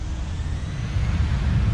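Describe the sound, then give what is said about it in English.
Low, steady rumble of an airliner rolling along a runway in Los Angeles. A dense, deep engine drone with faint hiss above it grows slightly louder partway through and then holds level. “A new day in Los Angeles, and an airliner rolls along a runway.”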